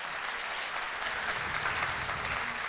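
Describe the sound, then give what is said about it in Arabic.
Audience applause at a ceremony welcoming student ambassadors: steady, dense clapping from a crowd, sustained at even loudness throughout. “تعالوا نتعرف عليهم بتصفيق عارم من الجمهور.”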